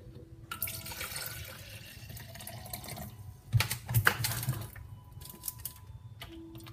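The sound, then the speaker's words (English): Two cups of spring water being poured into a small personal blender cup, a faint, steady trickle followed by a few soft knocks, with no talk. “So I'm gonna put 2 cups of spring water.”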